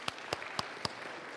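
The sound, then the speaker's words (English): Hand claps during church worship, four sharp, evenly spaced claps in a steady rhythm over a faint background. “Oh, clap your hands. Amen. It's not enough clapping for Jesus.”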